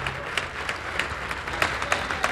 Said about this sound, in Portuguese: Vamos aplaudir mais ao nome de Jesus. Vamos aplaudir ao nome de Jesus por cada vida que está chegando. Olha quanta gente, vamos aplaudir mais ao nome de Jesus.